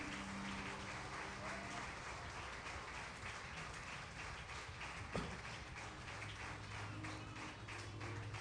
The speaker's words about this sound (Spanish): Den un fuerte aplauso al Señor.